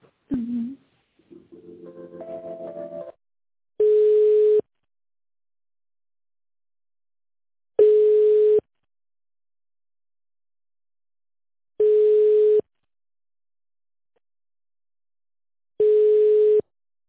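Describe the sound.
Telephone ringback tone while a call is being connected: four even beeps at one steady pitch, evenly spaced by long silent gaps. A short burst of other sound comes before the first beep.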